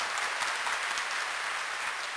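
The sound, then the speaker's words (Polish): An audience claps for a boy who has just come forward. Many hands make an even, dense patter that holds one steady level from start to finish, with no voices over it. “We clap for this boy. Very good. Brawo dla chłopaka.”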